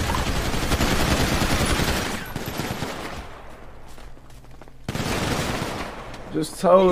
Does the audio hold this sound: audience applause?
no